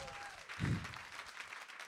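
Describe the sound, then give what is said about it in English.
An audience claps, a steady wash of applause with a brief louder swell early on, while a voice talks over it. “Give it up for Spencer and Mufseen.”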